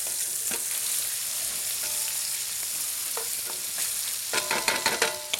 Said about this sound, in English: Then we're going to add our chicken, okay? All the chicken goes in. And we're going to start sauteing that till it turns nice and white.